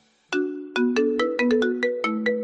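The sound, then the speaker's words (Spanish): Telephone ringtone for an outgoing call, a quick melodic run of about nine bright electronic notes, clear and alone. “Hola, estás llamando a Cuatre.”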